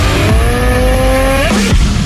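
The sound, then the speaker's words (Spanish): Motorcycle engine revving, from a CF Moto bike: a loud, continuous, buzzing engine tone with steady harmonics that climbs briefly near the end, with no voices. “En CF Moto encontrarás motocicletas para cada aventura.”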